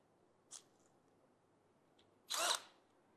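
A power driver whirs as it fastens the second part of an adjustable camera mount with nuts: a very short high buzz, then a louder burst lasting about a third of a second, against near silence.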